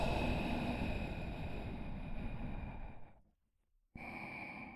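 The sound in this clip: Slow, airy breathing during a guided breathing exercise, a long drawn breath of soft rushing air that fades into a brief silence before the next breath starts, with no talk.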